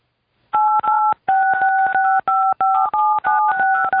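Rapid phone keypad beeps from pressing buttons while texting, with many crisp dual-tone presses in quick bursts separated by short gaps. The beeps are loud and steady in pitch, with no voices.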